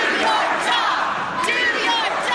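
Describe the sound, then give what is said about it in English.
A hostile crowd chanting at a town hall meeting held by Republican members of Congress, many loud voices shouting together in a dense, continuous roar with rhythmic surges. “Republican members of Congress are now facing hostile crowds at town hall meetings.”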